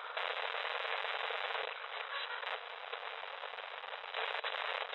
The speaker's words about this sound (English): This blasted old radio. Why don't I just throw it in the fire?